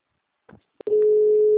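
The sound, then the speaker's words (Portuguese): A telephone line tone during an outgoing call: a brief rustle and a couple of clicks, then a steady, continuous mid-pitched tone that holds until the end. “Vou ligar para ele porque tava no mudo.”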